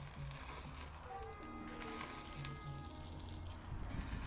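Food roasting in a pan gives off a steady, fairly faint sizzling hiss with light crackle, holding evenly for the whole stretch.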